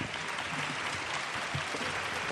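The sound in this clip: Applause from an audience welcoming an author before his talk on relationships between men and women; a continuous, even spread of many hands clapping, moderately loud, with no voices over it.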